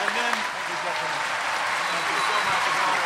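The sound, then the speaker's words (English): Loud, sustained live audience applause for Sir Ben Kingsley: a dense, steady wash of many hands clapping at once that holds an even level for the full few seconds. “Can I please have a huge hand for Mr. Sir Ben Kingsley? Thank you. Wonderful audience.”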